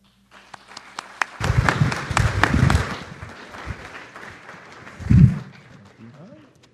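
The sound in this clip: Scattered audience applause welcomes a professor giving a human rights lecture on a university campus. Sparse individual claps are mixed with low, murmuring voice sounds that swell briefly near the middle and again toward the end.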